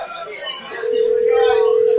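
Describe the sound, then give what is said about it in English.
A phone call being placed to someone: talk at first, then a loud, steady electronic tone that begins partway through and holds unbroken to the end. “Let's see if he answers his phone.”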